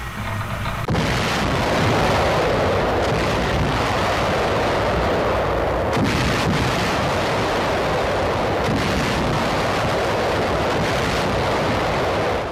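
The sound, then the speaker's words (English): Heavy naval gunfire as an American warship battle line opens fire on a Japanese column before dawn, a loud continuous roar of overlapping booms and rumble with no clear pauses throughout. “Coming on target, sir. Permission to open fire, sir. Fire when ready.”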